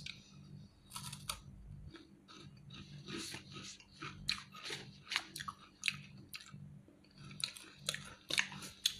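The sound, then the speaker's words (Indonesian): Crunchy tenggo snack being chewed, with many irregular crisp crunches and bites at a fairly quiet level, alone without talk. “hmm tenggonya enak banget hmm. kayak mukbang ya”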